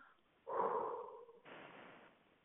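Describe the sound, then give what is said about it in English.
Breath blown from the mouth onto the palm of a hand: two airy exhalations in a row, the first fuller and stronger, the second a thinner, quieter hiss, with no talk. “if you look at your palm in front of your mouth and you blow on it with your mouth, you feel the breath on your palm”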